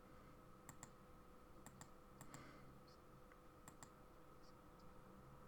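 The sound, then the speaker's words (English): Faint computer mouse clicks as a link is opened, several crisp ticks spaced apart, some in quick pairs, heard alone over a low steady hum. “I'm gonna click on the link.”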